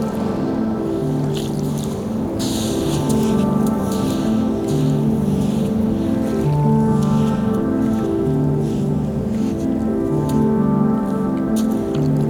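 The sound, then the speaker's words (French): Water trickles and seeps along a shore at low tide, a steady wet wash with soft squishing and dripping that stays at an even level the whole time. “C'est la marée basse. Et dans quelques heures, elle va remonter.”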